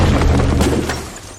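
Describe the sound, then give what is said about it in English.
A heavy, booming impact effect marks the Assault Gem attack, used by a level 93 Foe Trio Guardian in a monster-battle video game. It is a loud, broad burst with a low rumble that stays strong, then fades slightly toward the end. “Foe Trio Guardian used Assault Gem.”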